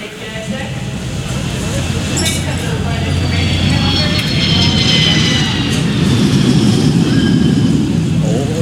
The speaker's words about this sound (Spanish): ¡El avión!